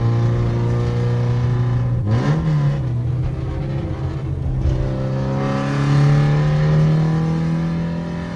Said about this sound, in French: Pour le moment, on va tirer que 6000 tours parce que la voiture est froide.